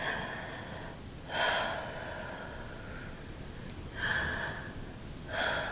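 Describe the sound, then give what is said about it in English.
Three deep breaths, each a short breathy rush of air spaced a couple of seconds apart over a faint steady hiss, with no talking. “Take some few deep breaths.”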